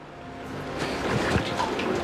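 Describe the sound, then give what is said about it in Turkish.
Water pours from a bucket onto soil to sift it while searching for gold, a dense rushing splash that starts low and swells after the first second into a steady, loud wash. “Toprağı buraya koyup üzerine kovayla su dökmeye başlayacağım. Ve böylece toprak elenmiş olacak.”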